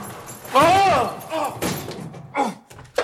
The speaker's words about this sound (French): Ça, c'est une porte de placard. Tiens, il est fermé à clé. Bizarre de fermer à clé un placard.